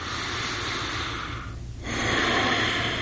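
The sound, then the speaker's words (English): A deep breath is drawn and let out: a long, airy rush of breathing that dips briefly midway and then returns stronger, alone without talk. “are you willing to take a deep breath over there? I can do that for you, yeah.”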